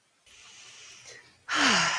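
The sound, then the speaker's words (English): A deep breath: a long, airy inhale, then a louder, forceful exhale with a falling, sigh-like voiced tone. “Take a deep breath.”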